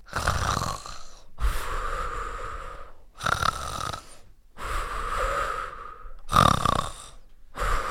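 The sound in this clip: A sleeping dragon snores as a sound effect in a children's story. The snoring is loud and rhythmic, with rasping inhales and breathy exhales alternating in several regular cycles with no talk.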